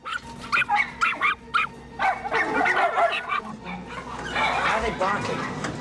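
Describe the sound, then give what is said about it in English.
Several dogs barking, yipping and whimpering as they get excited in cages inside a van, with many loud, sharp bursts throughout and a rougher, more continuous din toward the end. “Barking. They're dogs. I know they're dogs.”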